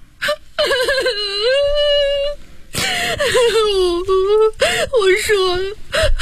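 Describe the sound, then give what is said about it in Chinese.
A woman crying in three long wailing bursts, her high voiced sobs wavering in pitch with short gasps between them, loud and alone while she is questioned about her husband's whereabouts. “别哭了”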